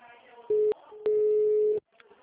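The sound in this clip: Telephone line tones as a call is dialled: a short steady mid-pitched tone, then a longer one at the same pitch, with voices talking underneath and afterwards.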